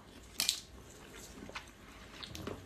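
Crunchy bite into chocolate-coated ice confectionery, one sharp crack followed by soft, squishy chewing, quiet and alone.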